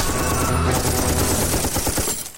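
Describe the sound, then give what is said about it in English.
Rifle gunshots come as a rapid, dense burst of many sharp cracks over a loud continuous roar, the individual reports grow more distinct toward the end before cutting off. “Mum's going off with a rifle.”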